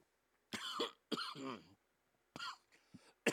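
Coughing and throat clearing from someone whose Dr Pepper went down the wrong way: several rough, voiced bursts separated by brief pauses, fairly faint.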